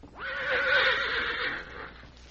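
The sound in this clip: A horse whinnies at a barn entrance, giving a single loud, wavering neigh about two seconds long that starts abruptly and trails off.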